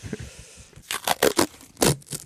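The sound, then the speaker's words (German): Military-spec adhesive tape is unrolled in several rasping, tearing bursts of rough, crackly noise, the strongest strips pulled in quick succession near the end, with quieter scraping before them. “So klingt es, wenn man Bundeswehr-nomifiziertes Klebeband abrollt. Es klingt schon so ein bisschen fester.”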